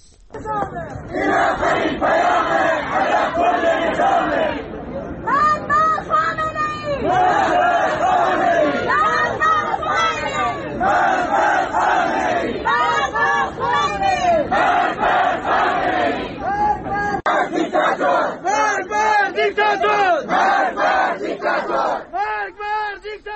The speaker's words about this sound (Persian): این صدای مردمی هست که رفتن برای مراسم 40 مختار احمدی که شبانه دفن شده بود و مراسم خاکسپاری نداشت.